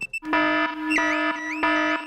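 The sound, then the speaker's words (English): A house alarm goes off with a loud, buzzy electronic tone in repeated bursts, its upper harmonics swooping up and down in pitch, after two brief high beeps at the start. “Daddy Pig has set off the noisy house alarm.”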